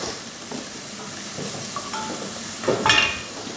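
Onions frying in a pan are stirred for a kidney dish. A steady, soft sizzle runs throughout, with scraping and a couple of brief utensil clinks against the pan that grow louder near the end.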